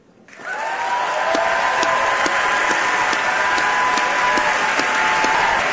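Applause from a theater audience at the Sydney Goldstein Theater in San Francisco welcoming author Arundhati Roy on stage, rising quickly from near quiet into loud, steady, dense clapping that holds evenly to the end.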